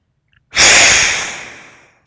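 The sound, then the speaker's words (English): A single forceful breath through both nostrils during a guided alternate-nostril breathing exercise, loud and rushing, starting abruptly and tapering off over about a second and a half, with no talk. “And the first step is a forceful exhale, long, deep inhalation. So as you're ready, inhaling through both nostrils, and we'll exhale side one.”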